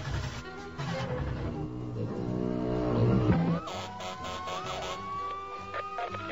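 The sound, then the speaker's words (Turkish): A police car siren wails from a car, its tone sweeping upward and then holding steady in the second half after a dense, busy stretch of other sound. “Sustur sireni.”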